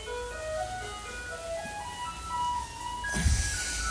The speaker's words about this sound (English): This is the sound of a Taiwanese garbage truck. Sounds a little bit like it should be selling ice creams.